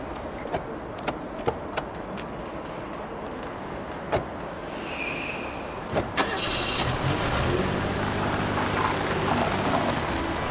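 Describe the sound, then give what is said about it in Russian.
Car engine starting after a couple gets into the car: several sharp clicks and knocks come first, then the engine turns over and settles into a steady low rumble above a constant background hiss. “Едут на машине.”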